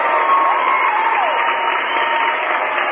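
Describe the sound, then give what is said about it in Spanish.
Applause sent to a friend on a call-in show, a dense, even wash of many hands clapping, held at steady loudness from start to end with no voices over it. “Yo le mando un aplauso porque”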